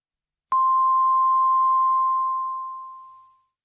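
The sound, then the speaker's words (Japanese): An hourly time signal marking 7 p.m.: a single pure, steady beep that sounds alone, rings clearly for about two seconds and then slowly fades out. “イオンモールいわき小名浜が午後7時をお知らせします。”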